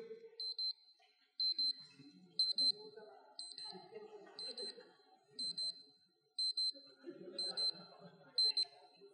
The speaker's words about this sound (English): the alarm is not set. So I'm going to turn this off